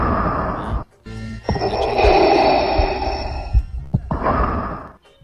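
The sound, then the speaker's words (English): Breathing straight into a microphone by someone complaining of a sore lung: a few loud, airy breaths and sighs with short pauses between them. “Let me just breathe into the microphone.”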